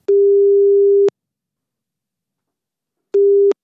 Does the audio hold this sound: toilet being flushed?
no